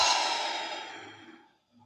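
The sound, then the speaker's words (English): A slow, deep exhale during a guided breathing exercise, an airy hiss that fades gradually over about a second and a half. It is followed by the faint start of another breath, soft and with no talk. “we're all just going to take three deep breaths in together at your own pace. So in through the nose, out through the nose or mouth.”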